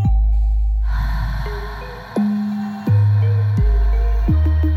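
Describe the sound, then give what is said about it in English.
A long, deep breath out during a guided breathing exercise: a steady, airy exhale that is held over sustained low tones. “Breathe in. Breathe out. One more time. Breathe in. And breathe out.”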